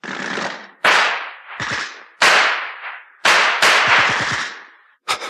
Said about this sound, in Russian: По звуку стреляли из немецких автоматов.